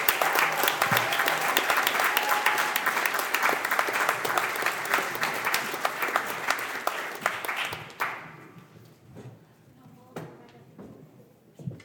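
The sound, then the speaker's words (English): An audience applauds in dense, loud clapping for about eight seconds, which then thins quickly to a few scattered claps. “One more big round of applause for you,”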